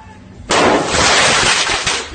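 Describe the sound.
A thrown firework mortar goes off with a sudden loud blast after a half-second of quiet, then a sustained, harsh roaring hiss that stays loud to the end.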